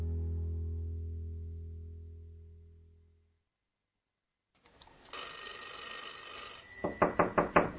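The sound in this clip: A telephone bell rings: a steady high tone first, then a rapid series of loud pulsed rings. A low sustained musical tone fades out and a short silence passes before the ringing.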